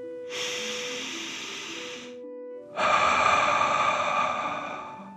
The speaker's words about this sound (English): Relax down into the sand and breathe like a dragon, in and out.